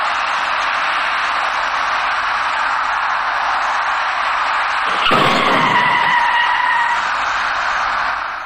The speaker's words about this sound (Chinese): 在这个过程中，它跟一辆由南向西左转弯的白色小客发生了碰撞事故。